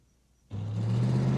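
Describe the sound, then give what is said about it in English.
A marshal's car driving and turning past a shopping center: the engine cuts in abruptly after quiet, a low steady rumble and whir that builds slightly and then holds. “The marshal's car. It turns past the shopping center, past the Haddonfield Hospital sign.”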